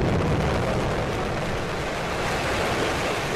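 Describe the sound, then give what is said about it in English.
A SpaceX Falcon 9 rocket carrying satellites lifts off from Vandenberg Air Force Base in California. A continuous, dense, loud roar holds steady throughout, with no speech. “The private space company SpaceX launched a Falcon 9 rocket carrying 10 satellites into orbit Friday. The rocket lifted off from Vandenberg Air Force Base in California.”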